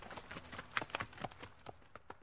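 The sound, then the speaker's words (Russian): Horse hooves clip-clopping in a quick, uneven run of many sharp knocks, moderately faint, with no voices. “Кощей Бессмертный домой возвращается, под ним добрый конь спотыкается”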